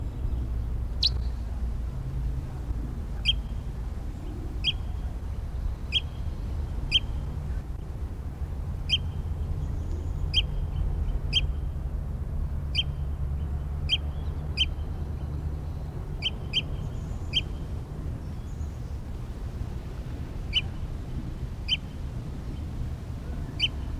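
Bird calls: many short, high chirps at irregular intervals, faint over a constant low rumble.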